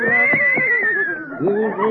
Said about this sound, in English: is this your horse?